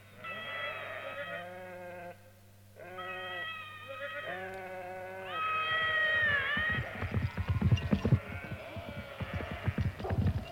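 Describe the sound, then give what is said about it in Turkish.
A flock of sheep bleating on a road, with several drawn-out, wavering calls overlapping at first, then a busier and noisier stretch of shorter bleats and rustling. “Şu koyun sürüsü de önümüze nereden çıktı?”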